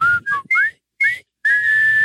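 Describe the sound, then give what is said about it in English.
A person whistles a well-known war film's march theme in clear, bright tones: short, bouncy notes with brief gaps, ending on a long held note. “Would you like to know why you're whistling right now?”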